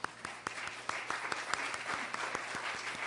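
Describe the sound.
Audience applause welcoming a speaker at a church service, with many hands clapping in a steady, dense patter that holds at an even level throughout.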